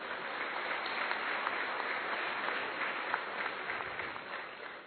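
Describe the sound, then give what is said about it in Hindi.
An audience applauds loudly, many hands clapping in a dense, steady roar that holds evenly throughout before easing slightly at the very end. “और अब तो जोर से ताली बजाइए।”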